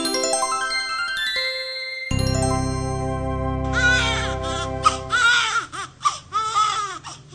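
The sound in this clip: An infant cries in short, wavering bursts of high wails with breaks between them. Before the crying, a bright, tinkling chime-like tone plays.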